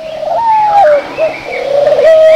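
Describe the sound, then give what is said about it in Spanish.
Pigeons cooing in a continuous, wavering, moderately loud call that rises and dips in pitch, with no voices. “¿Te has preguntado alguna vez por qué las palomas caminan de una forma tan chistosa?”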